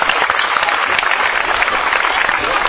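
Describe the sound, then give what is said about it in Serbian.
Many hands clap together as an audience welcomes the jury president at a church assembly. The applause is loud, steady and dense throughout the short stretch. “te molim da ga pozdravite s jednim velikim aplauzom.”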